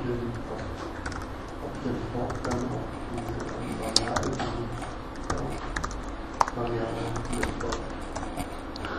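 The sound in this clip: Rapid keystrokes on a computer keyboard as code is typed: many quick, light clicks in an uneven stream, with a few sharper taps standing out, under a talking voice.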